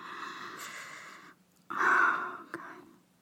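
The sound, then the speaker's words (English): Soft, slow breathing close into a listener's ear: two long, airy, hissing breaths separated by a short pause, faint and intimate, with no talk. “Does my breath tickle your ear like this?”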